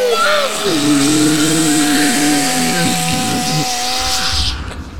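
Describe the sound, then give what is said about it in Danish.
Small chainsaw running in a film scene, a loud continuous buzzing engine whine that wavers in pitch throughout, then cuts off abruptly near the end. “Ja, så kommer jeg her med den her lille motorsav. Skal jeg bare gå i gang med at skære med det samme?”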